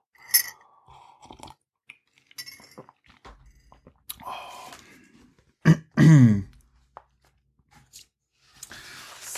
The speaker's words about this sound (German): Dann nehme ich nur einen kräftigen Schluck